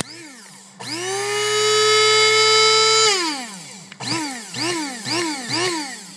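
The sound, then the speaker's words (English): An electric coffee grinder in a kitchen whines up and runs steadily for about two seconds, then winds down in pitch, followed by four short bursts that rise and fall. “And for those of you who are speculating, that was a coffee grinder.”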